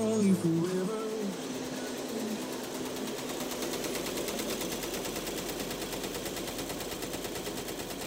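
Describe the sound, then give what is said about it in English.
Rapid staccato clatter of a room filled with Tajima embroidery machines stitching a local high school basketball team logo, a dense, steady mechanical rattle that runs on without a break. “The staccato beating of a room filled with Tajima embroidery machines, all stitching the logo for a local high school basketball team”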